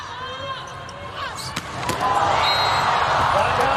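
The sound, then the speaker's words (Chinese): Volleyball serve in a match, hit by a young middle blocker: a couple of sharp ball-strike slaps stand out over steady crowd noise and a commentator's voice. “年轻的副攻手卢奇亚来发球”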